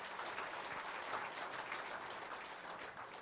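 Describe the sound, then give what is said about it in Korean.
A church audience applauds with sustained, dense clapping that stays even and unbroken throughout. “우리 곁에서 지금 함께 동행하시는 우리 하나님께 다시 한번 감사의 박수 올려드리겠습니다.”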